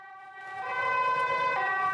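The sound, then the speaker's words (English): A yellow ambulance's siren sounds as the vehicle comes to a quick halt in the street outside. A steady, bright wailing tone grows louder during the first second, with a low road rumble underneath. “A door's opened, ready for a yellow ambulance that comes to a quick halt in the street outside, a few feet away.”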